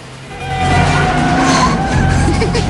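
Car tires skidding as a car weaves through traffic: a loud, continuous squealing rush over a low engine roar that lasts nearly three seconds, with no clear impact.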